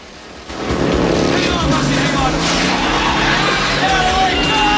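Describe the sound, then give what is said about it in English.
Police motorbike engine roaring through a narrow alley lined with Chinese shops during a chase, a loud, rough, continuous roar that jumps up after a quieter first half-second and stays steady. “A police bike chases them down the alley.”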